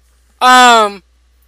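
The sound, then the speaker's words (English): A single tired yawn, voiced and alone: a sudden breathy onset, then a steady, clear tone held for about half a second that sags slightly in pitch before cutting off. “That was a yawn.”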